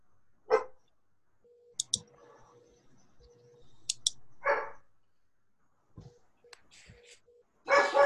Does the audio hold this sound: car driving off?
no